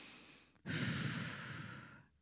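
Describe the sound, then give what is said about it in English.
A deep inhale by people during a spiritual gathering: one long, steady breath drawn in for about a second and a half after a brief catch, rushing and airy, fairly faint and alone without talk. “You're just going to breathe in a couple times.”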